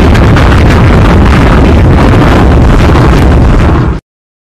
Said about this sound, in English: FYI, this is another sound of a bomb.